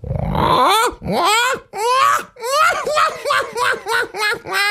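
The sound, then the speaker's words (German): A person imitating a black-headed gull's call: a loud series of harsh, nasal, wailing cries that each bend up and then down in pitch, repeated many times in quick succession. “Jetzt kommt eine leise Lachmöwe. Und jetzt wird die leise Lachmöwe ein bisschen lauter.”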